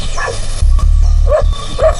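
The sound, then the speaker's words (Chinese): Dogs barking in a village: a few short, mid-pitched barks spaced apart, heard over a steady low rumble. “你没听到村子里鸡鸣狗叫的吗？那正常。”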